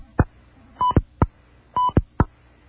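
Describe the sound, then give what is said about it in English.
Telephone keypad tones as the number 600 is dialled: a few short, clear beeps mixed with sharp button clicks, heard on their own. “Well, let's dial 600 to hear the cholesterol program.”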